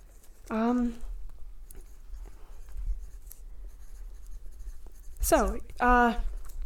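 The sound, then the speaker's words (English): Pen scratching on paper as something is written down, a soft, irregular scratchy rustle between two short voiced vocal sounds. “Ooh, should I actually? I should write that down.”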